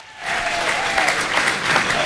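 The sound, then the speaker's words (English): Audience applause for a guest introduced at a live event: dense, steady clapping rises quickly and holds loud and even for about two seconds. “Andy Moran, ladies and gentlemen, give me a huge round of applause”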